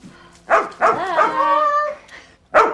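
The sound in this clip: A dog barks in a bathroom while being washed: a few sharp yelping barks around a drawn-out, wavering whine, with a final bark after a short pause.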